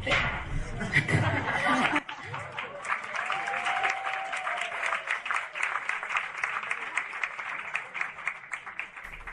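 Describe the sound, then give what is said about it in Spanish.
An audience applauds a speaker at a talk. The dense, even clapping runs for several seconds after a brief stretch of voice at the start. “ahí sí, se ganó los aplausos y cambió el clima.”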